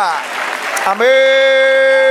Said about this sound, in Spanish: A darle un aplauso al Señor.